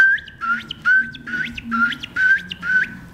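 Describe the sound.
Common ringed plover calling on a gravel bar by a river, where it runs near its chicks: a rapid series of clear, piping whistled notes, each ending in a short upward flick, repeated in a quick, steady rhythm.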